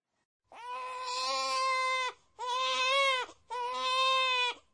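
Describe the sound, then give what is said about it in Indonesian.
A baby cries loudly in three long, high, strained wails, each held steady and separated by short pauses, with nothing else audible. “Bayinya menangis kuat.”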